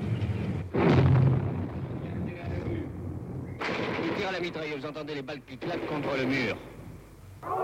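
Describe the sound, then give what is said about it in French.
Machine-gun fire, with bullets cracking against a wall during the 1956 Soviet tank occupation of Budapest near the Danube. Sharp, loud cracks and bursts break through voices talking over a noisy, radio-like recording. “Mitrailleuse, vous entendez les balles qui claquent contre le mur.”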